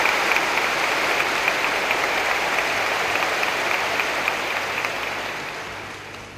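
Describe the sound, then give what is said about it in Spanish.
Audience applause fills the hall after a speech, a dense, steady clatter of many hands clapping at even loudness that tapers off slightly toward the end. “Muchas gracias por este aplauso.”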